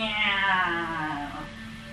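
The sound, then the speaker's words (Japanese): A cat meows in one long, drawn-out, loud cry whose tone sags slightly in pitch as it goes on, heard alone without talk. “ありゃ、猫の声が聞こえたような。”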